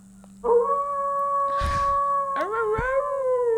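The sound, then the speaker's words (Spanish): A wolf gives one long, sustained howl with a steady tonal pitch. Partway through, a second howling note joins and rises in pitch, and both carry on loudly to the end. “Un aullidito.”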